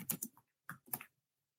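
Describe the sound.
Typing on a computer keyboard while entering a prompt for the Bard AI chatbot: a few quick, crisp keystrokes in two short bursts, then silence.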